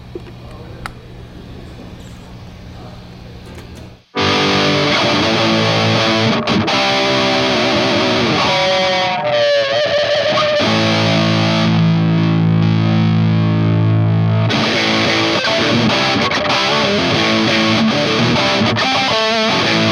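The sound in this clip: An electric guitar played on a Strat runs through an effects rig. A quiet, thin passage gives way to loud, heavily distorted, sustained chords and riffs that continue to the end.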